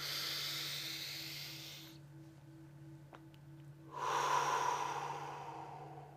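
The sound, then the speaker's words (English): A person takes a slow, deep breath in a guided breathing exercise. Two long, soft, airy breath sounds are separated by a quiet pause over a faint low hum, with no talking. “Now take a deep breath.”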